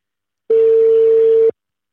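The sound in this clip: A telephone call tone sounds as a single steady, clear beep lasting about one second, alone, with no voices.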